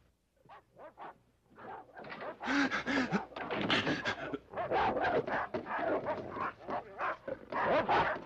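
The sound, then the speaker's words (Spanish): Several dogs barking, yipping and whimpering in a dubbed 1981 TV drama scene, with many loud overlapping barks after a few sparse yips at the start. “¡Silencio, malditos perros!”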